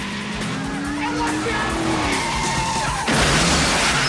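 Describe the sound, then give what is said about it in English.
Tires squeal as a car reverses and skids along a street during a police chase, a steady squeal under engine noise, then a louder rush of sound near the end. “Storm and Andrea are making good their escape when a couple of squad cars join the chase and head them off in the street. Storm reverses along the road.”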